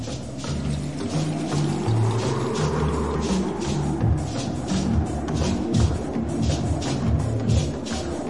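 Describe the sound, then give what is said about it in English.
Water drops patter on small leaves in a steady, dense shower of many light ticks over a soft low rumble, with no voices. “The pattering of the drops on the little leaves.”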